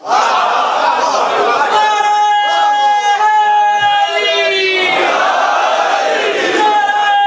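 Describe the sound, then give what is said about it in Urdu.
Loud chanted slogans ring out at a religious gathering, voices shouting long, sustained calls that hold steady and continuous throughout. “لگتا یہ ہے کہ اس مجلس میں نعرے لگوانے کی ذمہ داری صرف اس ملنگ نے لے رکھی.”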